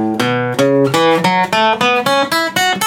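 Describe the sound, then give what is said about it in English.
Guitar plays a major pentatonic scale from the 5th fret of the low E string, a steady, even run of clear, ringing single notes climbing in pitch. “Little finger is now on the 5th fret of the E string. It sounds like this.”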